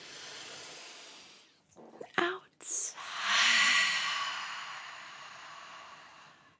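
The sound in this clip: Deep breath taken during a guided breathing exercise: a long, soft, airy hiss lasting a few seconds, preceded by a few brief breathy sounds.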